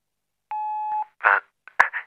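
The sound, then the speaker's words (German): A radio time-signal beep sounds as a single steady, mid-pitched pure tone lasting about half a second. It is followed by a few short, scratchy bursts of noise. “Beim nächsten Ton ist es 16 Uhr, 10 Minuten und 20 Sekunden.”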